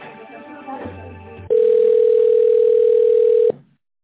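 A steady telephone tone sounds as a call is transferred. It holds loud and unbroken for about two seconds, follows some brief muffled sounds, and then cuts off abruptly.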